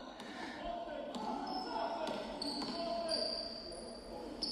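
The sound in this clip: A basketball is dribbled up the court during a game, a few sharp bounces spaced about a second apart under a steady din of crowd noise.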